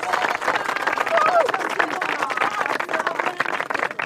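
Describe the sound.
Applause and clapping from guests at a wedding ceremony, a dense, steady clatter of many hands that continues throughout, with crowd voices mixed into the noise.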